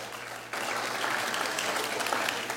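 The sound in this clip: Applause from a church audience at a morning service, welcoming visiting faith communities. A short lead-in gives way to steady, dense clapping that stays loud and even for about two seconds.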